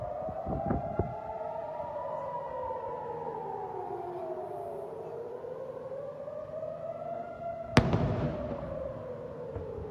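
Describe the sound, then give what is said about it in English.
A sharp blast from Iron Dome interceptor missiles striking incoming projectiles over Israel cuts through a wailing air-raid siren that slowly rises and falls, with a few fainter thumps near the start. “Here you can see the Iron Dome going after an incoming projectile and exploding when it hits it. And another one.”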